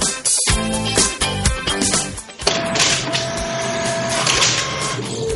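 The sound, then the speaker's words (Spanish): A printer prints pages with a continuous mechanical whirring and clattering. Dense rattling carries on steadily throughout, with no voices over it. “Sí, espera un segundo, que estoy haciendo ruido con una cosa. Sí, Está imprimiendo.”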